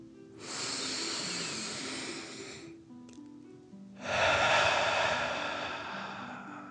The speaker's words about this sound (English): Last one, fill up your belly, deep breath in and out.